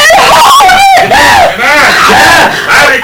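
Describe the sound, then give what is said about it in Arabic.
A woman screams for help during a violent confrontation in a drama, loud, high-pitched wailing cries that rise and fall continuously through the whole clip. “ما تصرخيش كده، ما تصرخيش”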